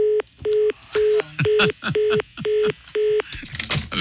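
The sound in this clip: Touch-tone phone dialing: seven short beeps in an even, steady rhythm, with rustling and other clatter in the gaps between them and more noise after the last tone.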